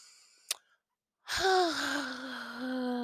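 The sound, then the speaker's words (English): A deep breath drawn in sharply, a loud breathy rush with a faint voiced tone that carries on for over a second, coming after a brief click and a moment of silence. “Let's take a deep breath.”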